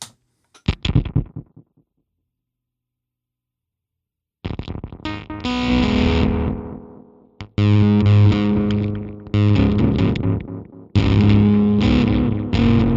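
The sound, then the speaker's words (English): A guitar fuzz pedal played through a delay gives a few short distorted stabs, then a pause, then loud, thick sustained chords in three long buzzing swells with echoing tails. “obviously you can use a fuzz any way that you want, like, through a delay or something.”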